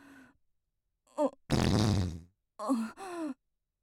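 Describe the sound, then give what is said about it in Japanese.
A woman who cannot stop breaking wind lets out a long rasping fart of under a second, framed by brief voiced sighs or groans before and after it. “おなら止まんなくなっちゃった。ごめんね、でも我慢が効かなくて。”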